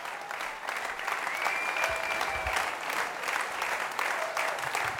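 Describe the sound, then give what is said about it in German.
Sustained, enthusiastic applause from a concert audience calling for an encore, with dense clapping that stays steady and unbroken throughout. “Und Sie hören es im Hintergrund, der Applaus nimmt kein Ende und natürlich gab es eine Zugabe”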